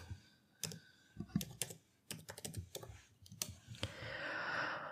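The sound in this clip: Typing on a computer keyboard to enter a search term for sneakers into a search engine: irregular runs of crisp, faint key clicks with short pauses, and a steady hiss swelling near the end.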